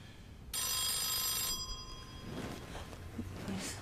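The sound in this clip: A telephone bell rings in one bright, sustained burst lasting about a second, then falls quiet. No voices are heard.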